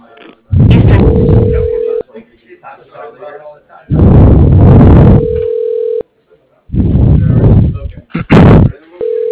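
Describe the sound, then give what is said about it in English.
Telephone tone plays while a call is being transferred: a steady, mid-pitched tone recurs a couple of times among loud, harsh, crackly bursts of line noise. “You are being transferred to Reed Marsh.”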